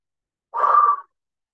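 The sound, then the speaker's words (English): A single big exhale through the mouth at the start of a guided breathing exercise: one breathy rush of air lasting about half a second, alone and fairly soft. “before we begin, we'll let out a great big exhale through the mouth, letting everything out.”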